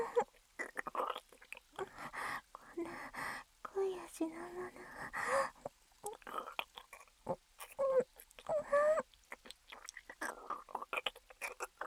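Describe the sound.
Someone eats their first meal while very hungry, making soft intermittent chewing and mouth noises. Quiet breathy gasps and murmurs fall between the bites, all at low volume.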